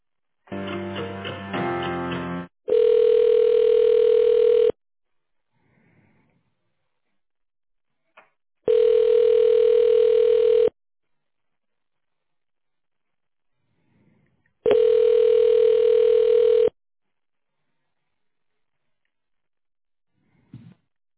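A telephone ringback tone plays while a call is transferred: a brief burst of other tones, then three long, steady, mid-pitched beeps of equal length, evenly spaced with silent gaps between them.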